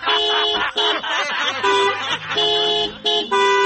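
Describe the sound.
Car horn honking, repeated in a burst of several loud blasts with short breaks between them. The layered, bright tones overlap, amid talk of celebratory honking and a pressure horn on a car.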